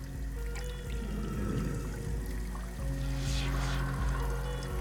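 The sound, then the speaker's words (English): Liquid swishing as photographic paper is moved around in developing solution with wooden tweezers; soft, continuous sloshing and trickling over a low steady hum, fairly quiet throughout. “He dips photographic paper in developing solution, moving it around with wooden tweezers until the figures reveal themselves.”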